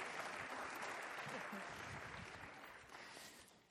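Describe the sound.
Audience applause welcoming two speakers onto the stage at a morning gathering, a fairly soft, steady patter of clapping that thins and fades toward the end.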